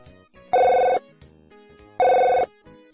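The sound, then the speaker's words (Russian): A telephone rings in two loud electronic bursts separated by a pause. Each burst is a steady buzzing tone of about half a second, and faint background sounds fill the gaps. “Жена была в отъезде и позвонила мужу.”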